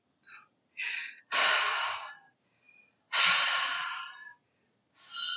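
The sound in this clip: A voice imitates someone breathing on a staircase at night: a few harsh, raspy breaths with short gaps between them, some brief and some drawn out, heard alone without talk.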